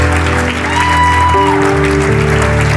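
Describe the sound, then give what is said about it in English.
Congregation clapping steadily as people come forward during a church service, loud continuous applause blended with sustained organ-like musical tones that shift pitch. “We're going to keep clapping as they come.”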